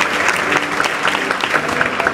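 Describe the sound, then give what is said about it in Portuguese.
Church audience in Brazil applauding, a dense, steady wash of many hands clapping that holds at an even loudness for the whole stretch. “Você pode aplaudir a Ele?”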